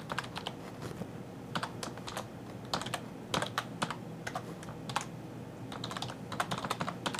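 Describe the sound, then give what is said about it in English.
Rapid typing on a computer keyboard while entering an email address, quiet irregular bursts of key clicks with short pauses between groups. “So I'm just going to type in Vince's email address here.”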